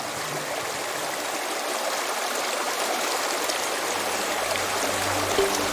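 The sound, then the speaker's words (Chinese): Mountain spring water flows in a continuous, even, full-bodied rush on a hillside, a dense, steady splashing that stays loud throughout, with a faint low hum entering near the end. “日夜奔流不息的山泉水是淘洗山海螺的上好水源，活水冲洗，干净自然。”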